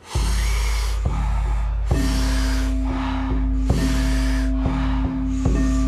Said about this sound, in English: deep inhale. Exhale all the breath out.